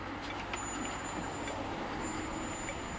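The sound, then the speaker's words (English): City traffic in modern Beijing: buses, trucks and cars merge into a steady, dense rumble with no letup, while a thin high-pitched whine cuts in and out above the noise. “Today's Beijing sounds like this.”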